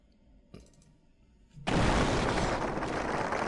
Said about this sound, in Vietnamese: Tiếng pháo ăn mừng liên tục vang lên